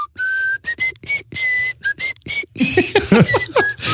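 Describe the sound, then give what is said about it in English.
A person whistles a run of short, clear notes separated by brief gaps, steady in pitch at first, then turning into quicker warbling, trilled phrases toward the end. “Let's do some whistling.”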